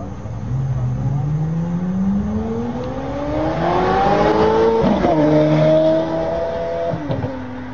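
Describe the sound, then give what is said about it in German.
Engines of a convoy of cars, including some yellow and blue ones, pull away from a traffic light in Singapore. A loud, continuous roar climbs steadily in pitch as they accelerate, then breaks into abrupt changes of tone toward the end. “Und als die Ampel umsprang, setzte sich die Kolonne mit einer einmaligen Soundsymphonie wieder in Gang Richtung Marina B.”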